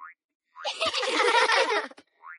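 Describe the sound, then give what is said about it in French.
Cartoon ball bouncing, a springy boing sound effect that rings out for more than a second, with short rising chirps just before and after it. “on peut faire des tas d'autres choses avec un ballon. Par exemple... Oh, wouf! Le faire rebondir.”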